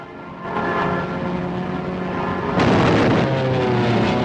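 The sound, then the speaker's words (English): Roaring engines of WWII fighter planes in a dogfight, a loud sustained propeller drone with layered harmonic tones that jumps abruptly louder partway through. “The skies are filled with planes.”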